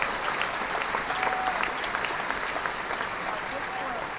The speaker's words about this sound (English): I just want to give you an applause